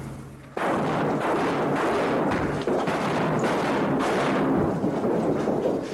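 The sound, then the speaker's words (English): Flashbangs go off and a wall topples over in one sudden, loud blast. A dense, rumbling roar of crashing debris follows and stays loud for several seconds. “The flashbangs went off. The wall toppled over.”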